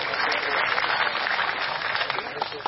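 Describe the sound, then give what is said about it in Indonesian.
Applause rises for a district military commander, a guest at a gathering: a thick, steady wash of clapping hands that lasts nearly three seconds. “Pak Dandim, tepuk tangan untuk Pak Dandim kita.”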